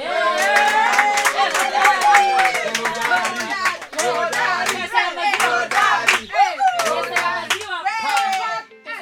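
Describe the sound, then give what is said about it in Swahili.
Applause from a group, with dense rapid hand claps throughout mixed with lively voices calling and cheering, steady and loud for the whole stretch before thinning at the end. “Tumpe makofi ya kilo bwana.”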